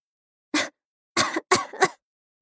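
Short, awkward, embarrassed coughs: a few dry, breathy bursts separated by silence, with the last two close together.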